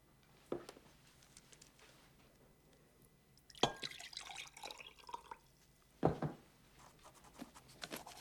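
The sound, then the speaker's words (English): A person drinks water from a glass. A few faint, soft watery sips and glassy clinks come in short bursts between quiet pauses, with no talk. “drinks water from a glass”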